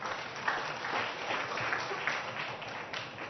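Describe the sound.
Applause from an audience at a worship service: a dense, continuous wash of many hands clapping that holds an even level throughout without pauses.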